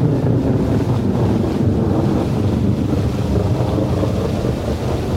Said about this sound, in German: begann es fürchterlich zu regnen